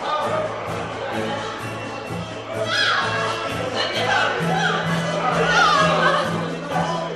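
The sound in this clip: A crowd of curious onlookers gathered on the quays on departure day, a steady dense murmur of many chattering voices with a low constant hum underneath.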